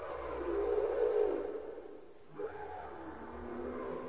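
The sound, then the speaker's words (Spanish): Humpback whales vocalize in the warm Pacific waters off the Ecuadorian coast after migrating from Antarctica: low, droning moans hold steady for a few seconds, dip briefly, then return as a sustained tonal hum over watery noise. “Se trata de la visita de las ballenas jorobadas que llegan a las cálidas aguas del Pacífico luego de nadar 8.000 kilómetros desde la Antártida.”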